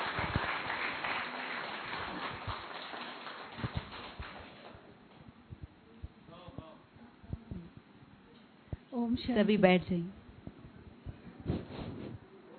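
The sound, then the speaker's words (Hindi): Audience clapping in thanks for a songwriter, a dense patter of many hands for about four seconds that then thins out, followed by quieter talk and a short vocal passage. “फिर से ताली बजाकर भाई जी का धन्यवाद करें।”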